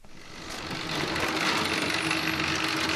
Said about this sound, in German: Die Maschine, die hier läuft, die tut immer schön 2 Maiskolben in einem kleinen Kartonschachtel in durchsichtige Folien einpacken.